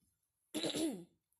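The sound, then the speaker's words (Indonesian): A single dry cough, a brief harsh burst lasting about half a second, heard alone against near-silence. “sorry, aku lagi batuk teman-teman.”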